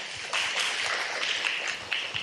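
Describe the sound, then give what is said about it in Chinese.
An audience applauds to welcome a speaker at a Buddhist gathering, with dense overlapping clapping that stays steady for the whole stretch. “掌声欢迎。”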